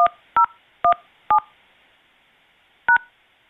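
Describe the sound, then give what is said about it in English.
Phone keypad touch tones entering a voicemail password: five short, loud beeps, four in quick succession, then a pause before the last. “Please enter your password, then press pound.”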